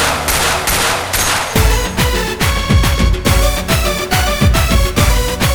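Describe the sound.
Gunfire sound effect: loud, rapid bursts of shots repeat in a fast, steady rhythm throughout, with many sharp impacts and a ringing tonal layer beneath them.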